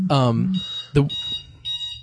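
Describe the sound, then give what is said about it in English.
An alarm goes off with a few high, repeated beeps, while a voice speaks over the start of it. “is it time to get up? Alarms going off.”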